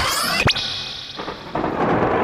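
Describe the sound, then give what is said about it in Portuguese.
Thunder during a storm makes a broad, noisy roar that dips in the middle and swells again toward the end. A sharp rising whoosh cuts in near the start. “Bora tentar permanecer nessa tempestade.”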